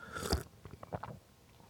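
A loud, crisp bite into a greenish food, followed by a few softer, crunchy chewing sounds that fade out. The sounds are fairly quiet and heard alone.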